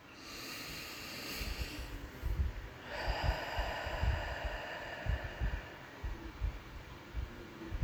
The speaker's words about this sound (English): We'll begin now with a deep breath in through your nose, inhaling slowly and deeply. Exhale through pursed lips until all the air has been released.